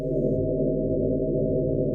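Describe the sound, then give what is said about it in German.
A sonified flicker frequency of starlight from a star at the edge of the Milky Way, heard as a steady, sustained low tone rich in overtones, with a reedy, clarinet-like timbre that holds unchanged for about two seconds. “Und zum Vergleich, die Frequenz hört sich bei einem Stern am Rande der Milchstraße so an.”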